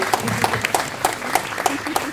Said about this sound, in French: On applaudit notre guest.